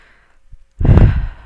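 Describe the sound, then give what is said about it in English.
A deep breath taken during a group tapping relaxation exercise, heard as a strong, breathy exhale like a sigh lasting under a second, preceded by a faint short breath sound and otherwise near silence. “So I'm going to ask everybody just to take a deep breath.”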